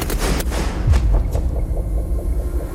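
Firing squad rifle volley at an execution at a fort south of Paris: a heavy boom with a deep, falling low-end rumble and a few sharp cracks, loud and alone.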